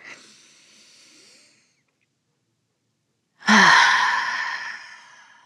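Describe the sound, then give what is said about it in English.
Deep breathing done together: a soft, airy breath, a short silence, then a loud, long sighing exhale that slowly fades. “Have you taken your deep breath today? You know I'm going to ask. And no, I know you haven't, so let's do it together.”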